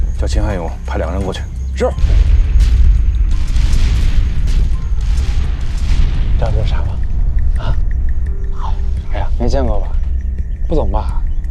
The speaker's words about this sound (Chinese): 炮击才刚刚开始